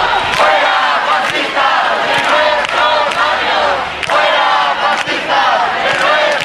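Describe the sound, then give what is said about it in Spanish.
A crowd at a peaceful sit-in protest on Carrera de San Jerónimo outside the Spanish Congress chants in unison, a loud, sustained rhythmic chorus of voices with repeated phrases and no pause. “La sentada es pacífica y se sigue escuchando, así suena la sentada en la carrera de San Jerónimo.”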